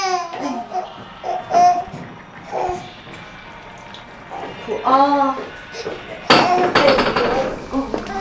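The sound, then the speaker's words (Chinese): A baby cries in intermittent rising and falling wails over adult talk and light clinking of dishes, with the loudest bout of crying near the end. “他怎么老哭啊？”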